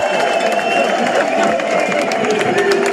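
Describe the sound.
Spectators at the Tour de France finish in Montmartre cheer in a continuous loud roar, with scattered claps running through the crowd noise.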